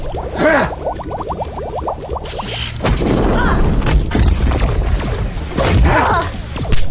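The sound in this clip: Booming video-game weapon fire as a barrage of explosions goes off, with a full-auto volley and a bubble-blast attack. Chirping tonal sweeps come first, then dense, crackling blasts that rumble loudly throughout.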